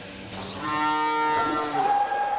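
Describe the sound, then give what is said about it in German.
Belgian Blue cattle, a cow with her black-and-white calf, give one drawn-out, moderately loud moo that climbs in pitch toward its end, with no talking. “Das ist eine ganz besondere Fleischrasse, weißblaue Belgier heißen die und dadurch ist das Kalb halt so schwarz-weiß und Kalb und Kuh sind wohl auf.”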